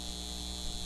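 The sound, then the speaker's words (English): A data center hums with a steady, faint, unchanging electrical drone and a thin high whine, with no other sound. “This is the sound of a data center taking your water and driving up your utility”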